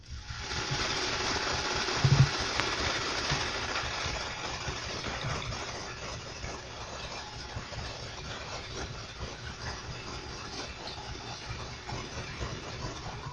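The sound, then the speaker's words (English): Churning, rhythmic engine-and-propeller drone of a destroyer picked up on JP-1 sonar listening gear filtered at 500 cycles, a steady throbbing hiss with a low pulsing beat that holds level throughout, one brief bump early on. “On your JP-1 sonic listening gear with the filters set on 500 cycles, a destroyer would sound like this.”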